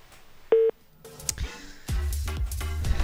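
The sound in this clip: A short telephone keypad tone beeps once as a call is redialed over a faulty phone line, followed by clicks and a dense, buzzing line noise.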